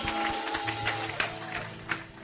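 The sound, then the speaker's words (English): A church audience claps as a 'clap offering' to Jesus, producing a fairly faint, dense patter of many hands with a few sharper claps standing out. “Give Jesus a clap offering,”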